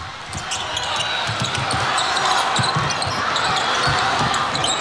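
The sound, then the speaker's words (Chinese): A basketball is dribbled up the court by the Czech team during an overtime game against China, making a steady series of low, thudding bounces under continuous play-by-play commentary and arena crowd noise. “捷克队运球到前场”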